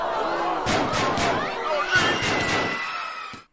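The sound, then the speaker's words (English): Gunshot sound effects in a homemade show intro: a rapid volley of sharp cracks, then a second cluster, all under voices and a busy backing bed. “I love that little intro I made, you know, with the gunshots”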